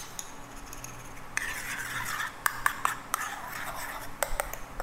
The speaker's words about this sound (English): Okay, and just gonna give that mixture a quick stir, just to even it up.